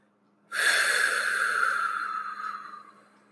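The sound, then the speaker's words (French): A long breath out through the mouth, emptying all the air from the lungs: one smooth, airy rush begins abruptly, holds for about two seconds, then gradually fades. “Deuxièmement, expirez par la bouche tout l'air de vos poumons.”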